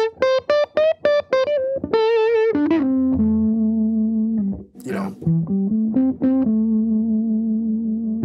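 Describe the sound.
Electric guitar with the tone knob rolled back for a dark, smooth 'woman tone' that sounds like a Les Paul, distorted: a run of short staccato notes, then long sustained lower notes with slight bends.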